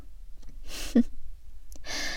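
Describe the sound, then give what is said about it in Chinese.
Heavy breaths come in a few faint, breathy gusts of air, one with a brief voiced catch in the middle, separated by short quiet gaps. “这样大口大口的喘气，还真有意思呢。”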